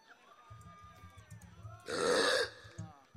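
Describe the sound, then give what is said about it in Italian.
A person burping on request in front of an audience lets out a single loud, raspy belch lasting about half a second, with a low murmur of voices before and after it. “Fammi un tu, un ruttino”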